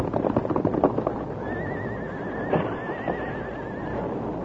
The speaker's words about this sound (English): Much too wide for the horse to jump it. We'll have a 50-foot drop into the water. Hold, Silver, hold. Easy, easy, Silver, easy. All right, Silver. Jump, fella. Jump, Silver.